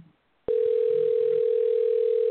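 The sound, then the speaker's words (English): Telephone ringback tone heard while waiting for a call to be answered: a steady single-pitched tone starts abruptly after a short quiet moment and holds unbroken to the end. “Waiting on this phone to be answered.”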